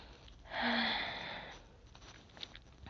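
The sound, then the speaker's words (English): One slow, deep breath drawn in: a soft, airy rush swells, peaks and tapers over about a second, then fades to a faint hush with a few small clicks. “Hold on. Take a deep breath.”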